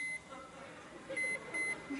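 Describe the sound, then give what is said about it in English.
A microwave oven being programmed for two minutes and started, giving a few short, high, clean electronic beeps, quiet and spaced apart over a faint background hum. “I'm sure you know how to program a microwave. Go ahead and shut that. Why don't we, oh, just for fun, let's put it on for 2 minutes.”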